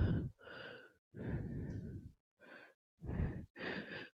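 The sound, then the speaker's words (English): Deep breathy exhales during a yoga breathing exercise: several separate sighing breaths in a row, each a soft rushing sound with a slight voiced tone, with short pauses between them and no talk. “And breathe all the way out.”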